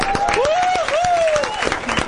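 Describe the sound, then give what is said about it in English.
Audience applause for a woman seated in the crowd: brisk clapping throughout the short stretch, with a rising and falling vocal tone from a voice carried over the claps. “this woman sitting here, give her another applause.”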